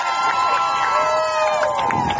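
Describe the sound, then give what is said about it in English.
A crowd cheers loudly, with overlapping shouting voices forming a steady, energetic roar and talking mixed in. “Let's give a big cheer for our boy right here.”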